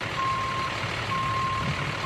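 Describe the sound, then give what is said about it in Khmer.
Reversing beeps from a container truck backing up on a quiet street in the Bronx, New York, during driving practice: long, evenly spaced high-pitched tones over a steady engine rumble. “កំពុងហាត់ថយរថយន្តដឹកកុងតឺន័រនៅផ្លូវស្ងាត់មួយនៅសង្កាត់ Bronx នៃទីក្រុងញូវយ៉ក”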